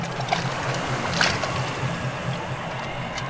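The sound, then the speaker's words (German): A small boat rowed hard with oars across the sea: steady sloshing water with a regular low rhythmic swish of strokes, continuous and moderately loud, no voices. “So schnell wie wir konnten, waren wir, Ned Land mit dem Wildschwein auf der Schulter, in unserem Boot und ruderten mit vereinten Kräften auf die Nautilus zu.”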